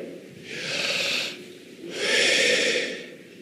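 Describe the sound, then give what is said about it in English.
A person takes a slow, deep breath in and then exhales: two soft, airy breath sounds, each lasting about a second, separated by a short pause, with no speech. “Can you just take a deep breath? Do that with me.”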